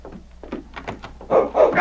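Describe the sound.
A great dog barks and charges into a cabin room through a door. A few quieter thuds and knocks lead into two loud, harsh barking bursts at the end.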